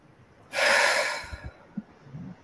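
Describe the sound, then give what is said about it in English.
A deep inhale and exhale during a guided emotional-release session: one loud, airy breath that rushes for about a second, then fades into near quiet with a few faint low thumps. “I'm taking a big, deep inhale. And then a big exhale.”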